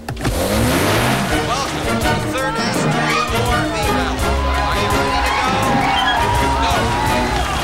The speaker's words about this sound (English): A man waves a flag and starts a huge four-wheel drive vehicle rally.